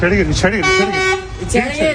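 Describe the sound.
Car horns honk on a street in Hatay during an armed fight between two groups, a steady sustained horn tone in the middle framed by shorter honks, loud and mixed with people's voices.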